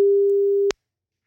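A single steady telephone tone as a radio show calls out to a listener. It holds at an even pitch for under a second, then a sharp click cuts it off.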